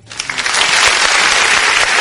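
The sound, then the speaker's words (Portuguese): Applause sound effect played in during a call-in news programme, a dense steady wash of clapping that swells quickly at the start and holds loud and even for about two seconds, with no voices. “Cadê os aplausos aí, meu produtor? Cadê aí, produção? Cadê o aplauso aí?”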